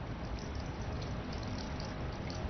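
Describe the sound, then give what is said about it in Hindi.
Running water as someone washes a few dishes, a steady, even splashing hiss with no breaks, soft and continuous under no voices. “अरे नहीं नहीं, आप बैठो, दो तीन बर्तन धो लेता हूँ।”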